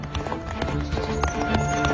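Galloping horse hooves during a chase, a fast, steady clip-clop of hoofbeats that pounds without pause over a dense rumbling background.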